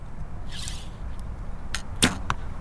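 An arrow shot from a bow at a target: a soft, airy whoosh, then a sharp, crisp impact crack a moment later, with a few faint ticks around it over low background noise.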